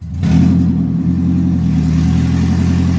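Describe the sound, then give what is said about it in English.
A Toyota Prius hybrid roars loudly after its catalytic converter was stolen, heard at a muffler shop in LA. The deep, raspy engine drone kicks in abruptly and then holds steady and unbroken. “A Toyota Prius normally sounds kind of quiet, like a spaceship. But when this one recently arrived at a muffler shop in LA, it sounded like this.”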